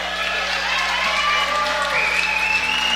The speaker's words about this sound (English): And a standing ovation for the senior guard from right here in Murfreesboro, from the huge crowd here at the Boulevard.